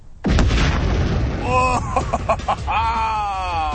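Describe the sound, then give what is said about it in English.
A TV blown up by an explosion: a sudden loud blast opens into a sustained roaring rumble, with voices crying out over the tail. “All right, demonstrating a high-speed camera by blowing up a TV. Here we go in 3, 2, 1, fire!”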